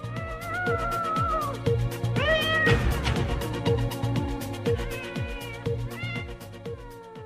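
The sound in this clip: Cats meowing: several drawn-out, wavering meows rise and fall in pitch. Lower overlapping calls continue underneath throughout.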